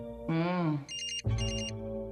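Telephone ringing for an incoming call: a ringtone of pulsing high chirps in two short bursts, with lower sustained tones beneath and just before them.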